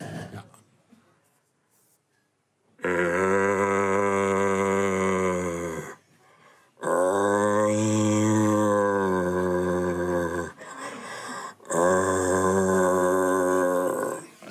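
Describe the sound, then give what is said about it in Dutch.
A human voice imitates the rutting bellow of a searching stag in a bellowing contest, with three long, loud, low, buzzing roars, each lasting a few seconds and separated by short pauses. “Dat is namelijk het zoekend hert. Het zoekend hert. Die heeft dan een burrel”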